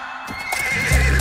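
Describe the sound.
A horse whinnies with a high, wavering sustained cry that swells slightly, and a deep low rumble joins in near the end.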